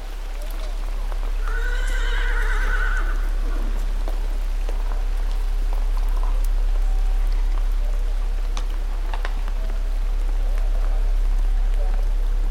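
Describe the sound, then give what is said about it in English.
Rain falling at night gives a steady, even hiss throughout, while a horse's whinny rises and falls plainly near the start. “It is night. The rain falls down.”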